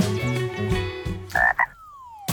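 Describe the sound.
Frog croaking: a few deep, raspy croaks in quick succession, then two brief higher chirps and a thin tone sliding downward in pitch.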